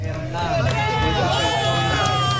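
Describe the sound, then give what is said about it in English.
A crowd cheers and shouts as a 43-year-old security guard is pulled alive from earthquake rubble in a shopping center basement in Venezuela, eight days after the quakes; many voices blend into a loud, continuous roar. “Cheers erupt as a man is pulled alive from the rubble 8 days after the devastating earthquakes.”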